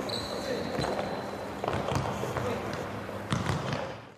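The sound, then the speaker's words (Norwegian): A ball bounces during a sports training session, giving a few dull thuds over steady busy background noise, with voices audible. “Ja, det er noe ball her, er det ikke det da? Lyden er hentet fra en treningsøkt.”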